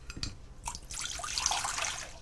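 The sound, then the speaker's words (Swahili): Water poured into a saucepan already holding soy sauce and sugar, one cup of about 200 ml, making a steady, moderately loud splashing pour after a couple of brief drips. “Kisha viweke kwenye sufuria pamoja na maji kikombe kimoja, sawa na mililita 200.”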